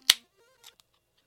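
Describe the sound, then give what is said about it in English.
A beer being cracked open: one sharp, loud crack with a quick decay, then a brief faint hiss and a small click, and otherwise quiet. “It's officially elk season. So you know what that means? I'm going to celebrate by cracking a beer.”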